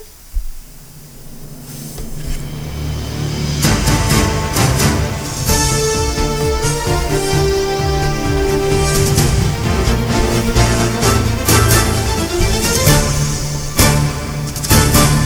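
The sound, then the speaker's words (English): A news bumper jingle opens quietly and builds, then loud music with sustained tones and sharp percussive hits plays steadily for about eleven seconds. “So we're going to touch upon that real quick as well. Oh. Hit the news bumper.”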